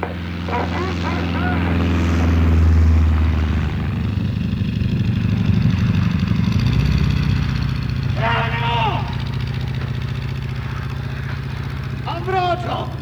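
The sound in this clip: An arriving airplane gives a loud, steady, low propeller-engine drone that persists throughout and swells slightly mid-way, with voices talking over it.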